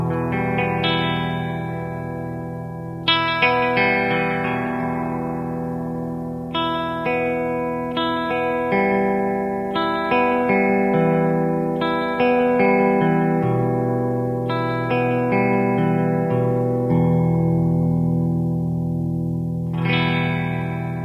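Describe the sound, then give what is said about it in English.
A guitar rings out an E minor chord as a tuning reference. It is strummed many times, each attack blooming into a rich, sustained ring that overlaps the next, with no talking. “let's tune up. I'll play an E minor chord. It makes a very musical tuning reference.”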